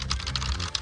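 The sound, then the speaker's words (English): Rapid, continuous clatter of keys being struck on computer keyboards, a dense stream of overlapping clicks with no voices. “Sound you're hearing is people all over the county Googling.”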